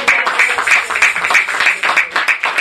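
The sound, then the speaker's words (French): Loud, rhythmic clapping from a church audience acclaiming the Lord, with sharp claps landing in an even, repeating beat. “Acclamons le Seigneur encore.”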